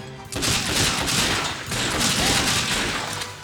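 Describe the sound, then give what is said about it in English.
Glock pistol gunfire in a video game, a dense, continuous crackle of rapid shots with no clear gaps. “And it sounds like they're using Glocks.”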